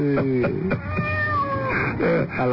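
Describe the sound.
A cat meows a few times in quick succession: loud, mid-pitched, drawn-out cries, with one long wavering meow in the middle. The sound is thin and band-limited.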